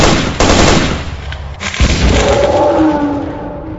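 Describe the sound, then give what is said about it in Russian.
Automatic rifle firing aimed bursts: loud, dense rapid-fire cracks and booms that fill the whole clip, with a ringing tone emerging toward the end. “Артем остановился, скинул автомат и пустил несколько прицельных очередей вслед одному из летающих сувениров”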